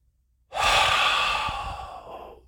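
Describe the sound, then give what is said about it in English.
A person takes one deep, slow breath before a golf shot on the first tee. A single airy, hissing draw of air starts abruptly after a moment of quiet and holds for about two seconds, easing off at the end. “deep breath. Just the sound, just doing that right there made me feel so much better.”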